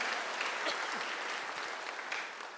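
An audience applauds in praise of God during a Sunday afternoon sermon, a soft, continuous rush of many hands clapping that stays even throughout.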